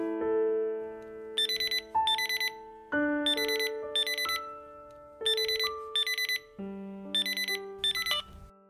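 A mobile phone rings with an incoming call from a father, a bright electronic melodic ringtone that repeats the same short phrase several times at an even pace, alone and without talk.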